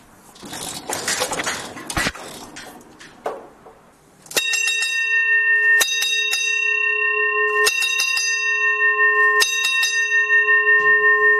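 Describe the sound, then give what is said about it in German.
A ship's engine order telegraph bell rings in the engine room. A few seconds of clattering noise are followed by a loud, sustained metallic ringing with clear ringing tones and a rapid, pulsing series of strikes that continues to the end. “es gibt auf der Brücke den Maschinentelegraphen, wo der Kapitän seine Befehle gibt, wie die Maschine fahren soll. Jetzt haben wir den in der Maschine erreicht und jetzt hören wir mal den Originalton, wie das funktioniert.”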